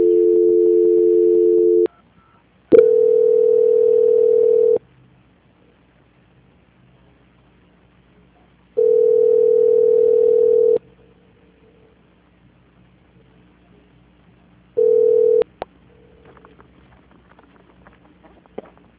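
A telephone line tone sounds while a call is being transferred: three steady beeps of about two seconds each separated by silent gaps, then a short fourth beep followed by faint line noise.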